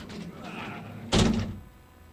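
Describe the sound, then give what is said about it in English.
A large, heavy door swings open with one loud, low thunk after a stretch of faint background noise. “I always forget where the big ass door is, but you know what? It's always right there.”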